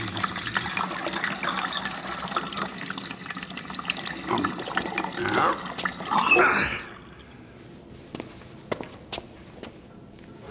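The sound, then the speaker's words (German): New-make spirit gurgling and splashing as it pours from the tap of a large wooden spirit receiver vat into a whisky cask at a distillery. A steady rushing pour runs for about seven seconds, then stops, leaving a few faint drips. “Luckend füllte der Feinbrand das Whiskyfass bis unter die Öffnung.”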